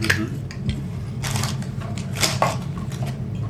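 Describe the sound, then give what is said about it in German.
Prying at the lid of a battery-powered electronic device with a module inside: a few scraping, clicking bursts of handling noise over a steady low hum. “Warte, ich muss mal den Deckel aufbekommen.”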